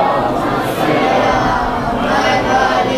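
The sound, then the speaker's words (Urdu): A crowd recites salawat together in response to a preacher's call during a religious sermon, many voices blending into a loud, steady collective chant that fills the whole stretch. “نعرہ سلوات”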